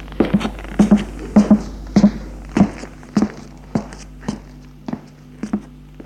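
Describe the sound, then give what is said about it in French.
Footsteps sound as a long, steady series of firm thuds at an even walking pace, with no other sound over them. “il entend des pas.”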